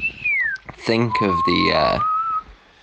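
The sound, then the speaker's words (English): A person whistles a tune in clear, high, sustained notes with a few small pitch slides. Someone talks over the middle part of the whistling. “as you whistle that tune”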